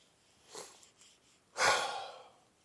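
A deep breath: a faint, short breath first, then a louder, longer breathy rush that slowly fades.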